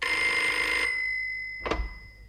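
Telephone ringing with a steady high electronic bell tone that cuts off abruptly, followed after a short gap by a brief sharp clack like a handset being lifted; no voices.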